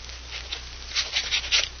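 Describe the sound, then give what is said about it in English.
Faint scratching of a pen signing a paper, a few short scratchy strokes bunched in the second half, quiet and alone. “Oh, sure. I'll sign it. Here, give me a pen.”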